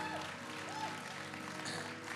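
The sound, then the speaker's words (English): A church audience claps as a clap offering to God. The clapping is soft and continuous, with sustained musical tones underneath. “Come on, every head. Come on, give God a great clap offering.”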